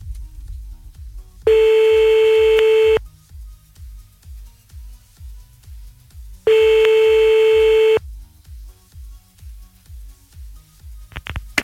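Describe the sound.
Telephone ringback tone as a call is dialled back to a woman: two long, steady mid-pitched rings separated by a pause, over a rhythmic low pulsing, ending with a brief sharp click.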